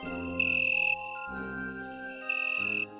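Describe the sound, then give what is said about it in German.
Chirping of an Italian tree cricket, a small, inconspicuous blossom cricket: two sustained high trills that start and stop cleanly, over a soft bed of low, steady tones. “Das Weinhähnchen ist eine kleine Blütengrillenart und ist eigentlich von Aussehen her ganz unscheinbar.”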